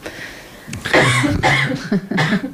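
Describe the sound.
A person coughs a few times in quick succession, each burst short, harsh and fairly loud, with brief quiet gaps between them and no talk over the coughs.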